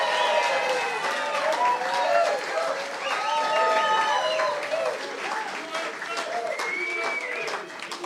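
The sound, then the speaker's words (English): Applause from a packed live audience at a War Room event in Dana Point, California, welcoming Steve Bannon: steady, dense clapping lasting throughout, with a voice talking over it. “Let's give him a big hand.”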